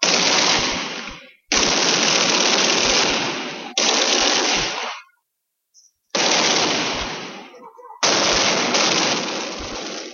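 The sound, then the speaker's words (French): Heavy machine-gun fire rattles beside an armoured car, from the automatic rifles of Katangese gendarmes, in several long, loud, dense bursts with short gaps and one longer silence between them. “Devant nous, l'auto blindée et les fusils mitrailleurs des gendarmes katangais.”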